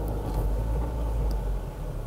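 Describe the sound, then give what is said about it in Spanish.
Low, steady engine and road rumble inside a car as it is pulled over to the roadside, a continuous dull drone that eases slightly toward the end, with no voices. “Voy a parar el carro porque obviamente no puedo leer manejando. Voy a pararlo en un lugar para poder leer esto.”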